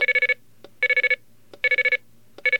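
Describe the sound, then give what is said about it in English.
Payphone coin deposit tones confirming a quarter: groups of five rapid, bright electronic beeps repeat about every 0.8 seconds, with a faint click between groups. Three full groups sound, and a fourth begins at the end. “sound of those tones as the only confirmation that a quarter has indeed been placed into a phone”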